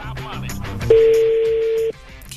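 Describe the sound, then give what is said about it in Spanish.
Telephone line tone during an outgoing call: a single steady mid-pitched tone holds for about a second, then cuts off abruptly, with a few faint clicks and rustles around it. “Estoy marcando. Ojalá conteste.”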